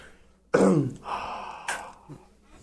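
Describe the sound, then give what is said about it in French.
Breathy exhale after taking a puff: a strong rush of air with a rough, throat-clearing onset that tails off, then a second, shorter breathy burst. No one speaks. “Ben oui, je viens de prendre ma petite shot de bleu. Je vais arrêter de vous respirer ça dans les oreilles.”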